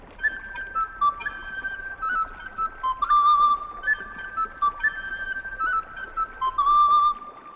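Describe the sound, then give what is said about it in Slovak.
A willow whistle is blown in a bright, high-pitched tune of many short notes, some held longer, in a bouncing rhythm. It is clear and alone, with no talk. “Tu je píšťalka. Ukáž, zaraz ju vyskúšam.”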